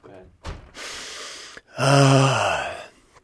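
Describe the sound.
A big breath: after a short puff, a long airy inhale is followed by a louder, drawn-out voiced sigh that trails off.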